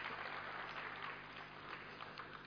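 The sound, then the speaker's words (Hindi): Audience applause at a devotional gathering, a steady, dense wash of clapping that holds at an even level throughout with no voices standing out. “जोरदार उनके लिए तालियां बजाइए।”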